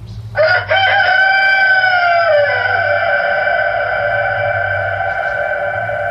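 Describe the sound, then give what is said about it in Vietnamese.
A rooster crows once, loud and long: a sharp opening rises into a drawn-out call held for several seconds. A low, steady hum runs underneath. “bỗng nhiên con gà trống nổ tình, bay vụt ra từ trong bầy gà, đậu ngay trên vai lão, nghiền cổ gáy vàng.”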